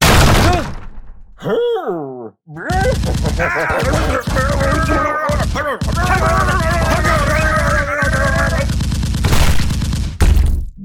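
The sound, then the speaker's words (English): Machine-gun fire: a loud, continuous rattle of closely spaced shots lasting several seconds, with tonal, vocal-like sounds mixed in and a short sliding voice-like sound just before the burst. “Now I have a machine gun.”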